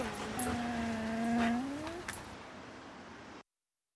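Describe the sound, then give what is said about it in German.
A dog whimpers in a drawn-out, tonal whine that holds steady, then slides upward in pitch before fading, over a constant background hiss, ending abruptly in silence. “Halt die Schnauze, Köter!”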